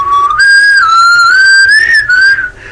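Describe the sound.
A person whistles, imitating a whistle used to call for attention: a loud, clear, sustained tone that jumps up early, wavers and slowly climbs, then dips and cuts off abruptly near the end.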